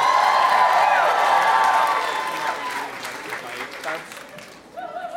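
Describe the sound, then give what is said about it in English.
Audience applause and cheering from a crowd: loud, dense clapping with cheers that starts strong and slowly thins and fades over several seconds, with a brief swell near the end. “Make some noise for Jaden.”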